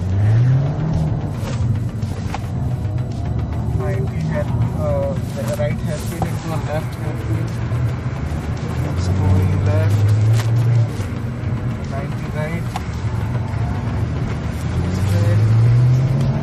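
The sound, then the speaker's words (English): Loud, full-throttle engine roar of an RS sports car driven hard by a professional driver, heard from a passenger seat inside the car. Dense and unbroken, with the engine note climbing in repeated surges as it accelerates. “From the wrong seat, with a professional driving, you finally hear what 50 years of the RS sound like with absolutely nothing held back.”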